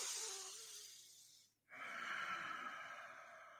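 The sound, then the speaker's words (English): A slow, deep breath drawn in through the nose during a breathing exercise, a soft airy hiss lasting about a second and a half, a brief break, then more faint breathy air noise. “you take a deep breath in through your nose, you fill up your belly, you fill up your chest, and you hold it in.”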